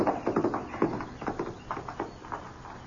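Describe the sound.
Hooves of a horse ridden away at a trot: many quick clip-clop strikes in a steady, lively rhythm, moderately loud throughout.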